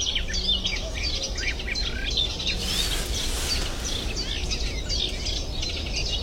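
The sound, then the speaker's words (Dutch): A Cetti's warbler sings in a marsh with loud, rapid bursts of sharp, high chirping notes over steady background noise. “Nu is het een vrij normale soort in moerassen, de Setisanger.”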